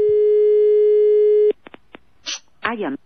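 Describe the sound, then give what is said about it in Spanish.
Telephone busy signal while calling a number in Telde: a steady, loud tone runs unbroken for about a second and a half, then cuts off. A few soft clicks and a brief voice follow. “Estamos llamando a Telde.”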